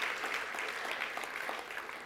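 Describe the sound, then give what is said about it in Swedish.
Applause from a church audience during a sermon: dense, continuous clapping, fairly faint and even throughout, easing slightly near the end. “Vi måste prisa honom med en applåd till och tacka Jesus.”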